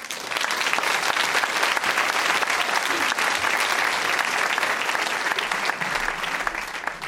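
Audience applause welcomes a performer onto a stage, a dense and steady wash of many hands clapping at even loudness for about seven seconds.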